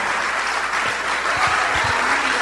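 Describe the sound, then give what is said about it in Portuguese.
Steady, dense applause from a church audience during a worship service, welcoming people who come forward. It fills the whole clip at an even loudness without a break, and a few low thumps show through. “Vamos aplaudir o Senhor Jesus por cada vida que está chegando.”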